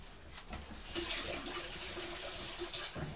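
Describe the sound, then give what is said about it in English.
Water running from a tap for rinsing after a young boy's tooth brushing, a steady, faint hiss of flowing water that continues evenly throughout. “Right, let's just get some water and rinse.”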